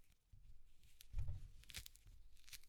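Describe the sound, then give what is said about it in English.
Peel tearing off a small mandarin orange by hand: a few soft, crackly ripping bursts, faint and alone, with one fuller tear near the middle. “I'm peeling an orange. You want to hear it? Here.”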